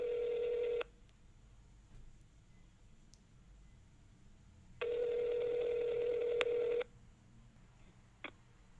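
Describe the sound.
Ringback tone of an outgoing phone call: two steady, fairly quiet tones, each lasting about a second or two, separated by several seconds of faint hiss, then a brief click at the end.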